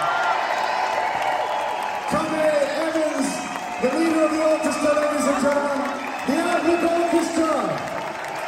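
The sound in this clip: An audience applauds and cheers as a musician returns to the stage for one more bow at a concert, a dense wash of clapping under a man speaking.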